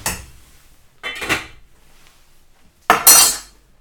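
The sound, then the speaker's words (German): Metal lid set onto a cooking pot on a stove turned down low for a long simmer: a few clattering metallic knocks and clinks, the last one loudest and brightest. “Hitze runterdrehen. So auf zwei. Deckel drauf.”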